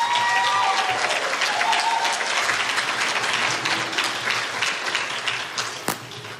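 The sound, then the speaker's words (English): Sustained applause from an audience at a City of Norfolk business accelerator event honors a councilwoman. Dense, steady clapping goes on without talk and tapers slightly toward the end. “Can we hear it one more time for Councilwoman Royster?”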